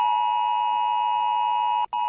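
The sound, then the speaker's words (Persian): A mobile phone emergency alert tone sounds: a steady, loud electronic beep held for about two seconds, broken by a brief gap just before the end. “این سامانه هشدار جدید تلفن همراه است.”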